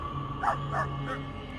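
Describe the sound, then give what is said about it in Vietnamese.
A dog barks while scratching at the ground with its front paws under a mango tree in a garden. Three short, fairly faint barks come in quick, even succession over a low background hum. “Vừa cào nó vừa sủa lên vài tiếng: Vàng, Vàng ơi.”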